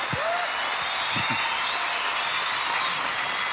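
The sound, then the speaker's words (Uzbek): Audience applause at a concert, a dense, even hiss of many hands clapping that continues steadily for about three and a half seconds. “mana shunaqangi olqishlar ko'p bo'lsa bizni ijodiy hayotimiz ham ko'p bo'ladi.”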